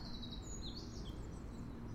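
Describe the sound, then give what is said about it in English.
Birds sing outdoors beside cold water: faint, high chirps and thin whistled trills come and go above a steady, noisy background hiss. “Look at the birds, they're singing”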